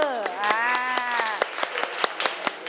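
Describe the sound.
Students in a classroom clap their hands, a rapid run of sharp, separate claps in the second half that follows a drawn-out voiced tone at the start.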